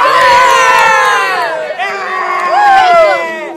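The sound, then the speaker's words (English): Loud cheering from a group of scouts as their patrol wins the Montezuma Spoon cooking award. Many high-pitched voices shout and whoop together in a sustained burst that dips briefly in the middle, then rises again. “So, with a round of applause, here is the Montezuma Spoon winner, the Eskimos!”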